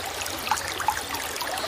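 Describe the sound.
A flowing stream gives off a steady rushing, trickling wash of water, even and unbroken, with a couple of faint splashy accents and no voices.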